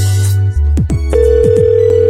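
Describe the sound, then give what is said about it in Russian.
An outgoing telephone call placed to an employer as a test of a job vacancy: a loud electronic ring tone, with a few short chirping blips before a long, steady, even tone. “Контрольный звонок.”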